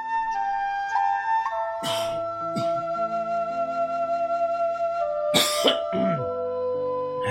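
Coughing from a wheezy seasonal winter cough, a few harsh, raspy bursts, including a double cough and a later cluster, loud over a soft, steady musical backing, with no talk.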